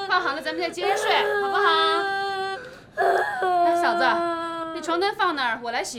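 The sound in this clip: A small child cries and whimpers after wetting the bed while an adult comforts them. Wavering, high-pitched sobs and wails come in several bursts, with a brief pause midway.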